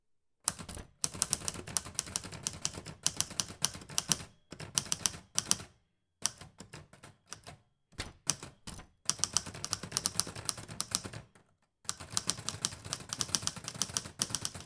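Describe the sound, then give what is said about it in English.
Rapid clacking of keys on a typewriter, struck in many quick bursts of varying length separated by short pauses, loud and crisp with no voices. “I'm going to start typing up your order and infusing it with the magic of this magical typewriter”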